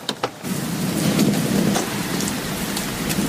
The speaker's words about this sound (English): Why is it still raining?